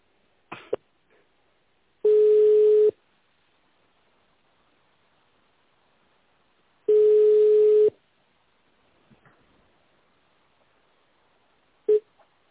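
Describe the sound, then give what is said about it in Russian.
Ringback tone of an outgoing telephone call to Simferopol, Crimea: two long, steady mid-pitched tones separated by a few seconds of quiet. A brief tone burst follows near the end. “Крым звоню, Симферополь.”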